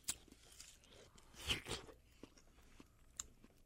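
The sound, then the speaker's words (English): Crunchy biting and chewing of an ugly, overripe watermelon: one louder crisp bite near the middle among softer, faint wet crunches of chewing. “All right. Another ugly one. Now we're going to try the ugly watermelon.”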